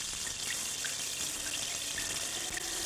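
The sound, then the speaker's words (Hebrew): Rain falls as a steady, soft hiss of water, with a few faint drips standing out briefly. No voices are heard. “הגשם יורד,”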